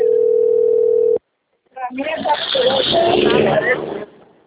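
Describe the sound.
A telephone ringback tone while a call is being placed: one steady, mid-pitched continuous tone lasting about a second, cut off abruptly, then after a short silence a person begins talking.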